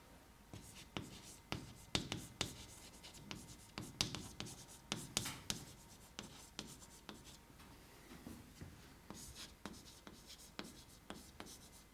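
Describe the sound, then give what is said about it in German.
Handwriting with a pen: many quick, irregular scratching strokes and small taps run steadily and fairly softly throughout, with no talk over them. “und ich schreibe jetzt mal hier weiter”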